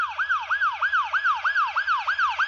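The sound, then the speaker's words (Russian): An ambulance siren wails in rapid, repeating pitch sweeps, steady and loud throughout, with no voices. “Следом послышался вой сирены.”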